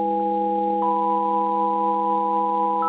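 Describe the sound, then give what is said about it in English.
Artificial radio signal tones: several steady, pure electronic tones sound together as a loud sustained chord, with one tone stepping to a new pitch early on and another appearing at the very end. “This is artificial. This is someone sending us a message, obviously an intelligent being at the other end of the radio.”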